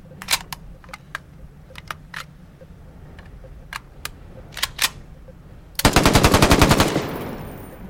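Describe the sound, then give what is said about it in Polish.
Shell casings bouncing off a wall during gunfire in a video game: scattered sharp clicks and ticks, then a dense, loud burst of rapid automatic fire that stops abruptly. “Ładnie, łuski się słychać. Jak w ścianę strzelasz, to się łuski fajnie odbijają.”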